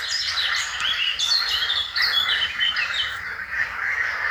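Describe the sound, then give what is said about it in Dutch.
Blackcap and chiffchaff song recorded outdoors in Posterholt, Limburg, a busy overlapping tangle of bright warbling phrases and repeated chirps, continuous throughout over a quiet low background. “Een kakofonie van zwartkop. En tjiftjaf. En groene kikkers.”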